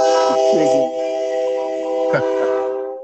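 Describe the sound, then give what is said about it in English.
Train horn of an approaching train: a loud, steady multi-tone chord held for about three seconds before cutting off. “I hear a train of coming.”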